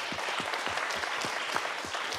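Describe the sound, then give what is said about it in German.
Polite audience applause in a hall after a winemaker's speech on farmers and climate activists working together, a moderate, steady patter of many hands clapping at a fairly soft level. “Der Applaus ist höflich, aber einige Gesichter im Saal schauen doch sehr ratlos.”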